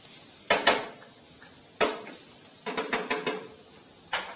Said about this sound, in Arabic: انا هنا بحمر البصله مع شويه قرفه، شويه حبهان، شويه كاري، فص ثوم. شوح البصله كده كويس.